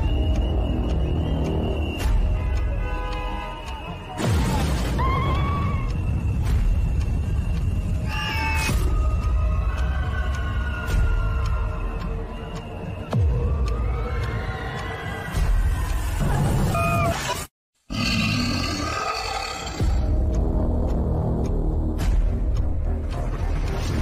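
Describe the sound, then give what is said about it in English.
Trailer audio for a new theme park ride, full of cat-like meowing cries and tonal sweeps over a loud, dense rumbling bed. A brief silent dropout comes late, then the busy sound resumes. “they released a trailer for it this morning, along with the logo for the ride, which looks fucking sick. Like, should we run it? Yeah, go for it. Let's run it.”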